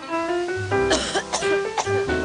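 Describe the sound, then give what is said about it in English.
A child coughing at night, about three short, harsh coughs in quick succession, heard over a soft, steady sustained tone in the background. “Nighttime coughs keep kids awake.”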